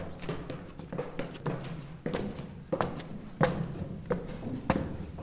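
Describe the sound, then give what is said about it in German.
Footsteps of people climbing the stairs inside the Diebsturm, a city-wall tower built around 1200 that was once a prison and later a water tower. Many irregular hollow thuds and scuffs fall roughly every half second against a low rumbling background. “Kommt, lasst uns die Treppe hochlaufen.”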